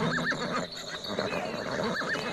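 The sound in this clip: Horses neigh in short, high whinnies, one pair near the start and another near the end, over a dense, steady background of shuffling noise.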